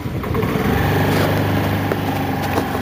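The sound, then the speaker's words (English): Street traffic in a loud, crowded city in Chennai, heard as a continuous, loud droning engine roar with a buzzy, motorcycle-like tone that holds steady throughout. “Frankly speaking, Chennai is a loud city and a crowded one too.”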